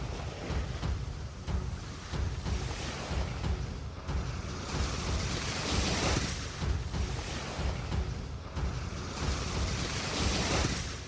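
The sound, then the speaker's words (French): Surging water of a huge wave rising from a lake, a continuous loud roaring wash with swells every few seconds, heard alone without voices. “Mais à peine sort-elle le poisson de l'eau que le lac se soulève en une vague immense.”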